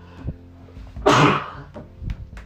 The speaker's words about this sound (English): I'm sorry, I don't edit and I just sneezed.